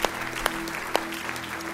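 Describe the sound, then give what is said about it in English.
A church audience claps hands in a steady, dense wash of applause. A few sharper, louder claps stand out, and a held musical note sounds beneath. “Can we give the Lord a hand clap this morning for his awesome love?”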